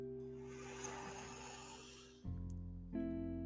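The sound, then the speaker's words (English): A long, deep inhale through the nose during a guided relaxation is a steady breathy rush of about two seconds over a soft sustained musical drone, which shifts to new tones once the breath ends. “Take one last deep inhale through your nose.”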